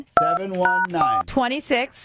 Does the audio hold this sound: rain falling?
no